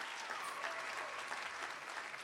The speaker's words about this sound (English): Yay! Give yourselves a hand.